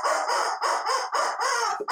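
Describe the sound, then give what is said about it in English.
Squawking of a rubber chicken toy: several loud, shrill, honking squawks in quick succession with brief gaps between them, heard alone without talk. “And the rubber chicken says,”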